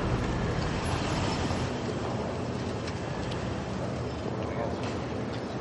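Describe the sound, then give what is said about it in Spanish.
A car drives into a compound and parks in front of an institutional building. Its engine and tyre noise make a steady, continuous rumble throughout. “Un coche accede a un recinto y estaciona frente a un edificio institucional.”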